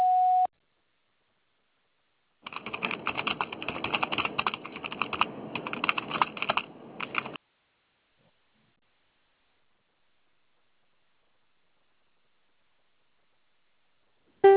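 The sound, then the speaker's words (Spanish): A voicemail system sounds a single short, steady electronic beep to start recording. Silence follows, then several seconds of dense, rapid clicking like keyboard typing, another long silence, and a brief tone cutting in at the very end. “Nada ha sido grabado. Después del tono, grabe su mensaje.”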